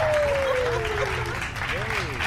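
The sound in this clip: Audience applause welcoming a show's host, a steady, full wash of many hands clapping throughout with a voice speaking over it.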